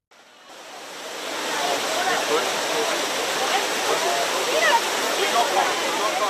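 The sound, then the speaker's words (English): Tourists splash in the water of Rome's Trevi Fountain to cool off during a heatwave, a loud steady wash of rushing, splashing water that swells in the first second, with a faint murmur of voices beneath. “That's the sound of tourists using the waters of Rome's Trevi Fountain to try to cool down”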